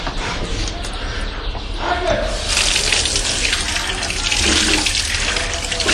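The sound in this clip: Water running steadily from an old public drinking fountain that once supplied a neighborhood, a continuous broad splashing rush with voices talking over it.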